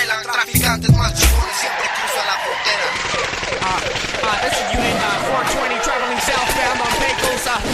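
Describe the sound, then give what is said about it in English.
Gunshots from a shootout between police officers and suspects: a few sharp, loud bangs near the start, then dense, busy noise with voices over it. “Oh shit, they're shooting at us”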